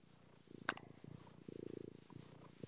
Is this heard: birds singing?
no